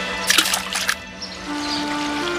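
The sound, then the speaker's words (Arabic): A short watery splash as a group of mice is thrown into a river from a bridge, heard as a burst of bright spattering that ends quickly and leaves a faint, steady hum. “ورأى مجموعة من الفئران أمامه. ضحك وألقى بهم جميعاً في النهر.”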